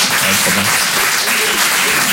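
Audience applause, a dense, steady wash of clapping that fills the whole short stretch at an even loudness without breaks.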